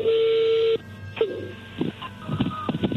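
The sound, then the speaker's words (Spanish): An incoming telephone call sounds as a steady, loud electronic tone lasting under a second, followed by quieter line noise and a few brief, muffled sounds. “Ahí entró la llamada, contéstale tú”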